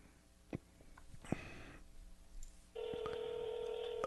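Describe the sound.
A telephone call is being dialed: a few faint clicks and taps come first, then a steady electronic tone starts and holds until the end, quiet overall.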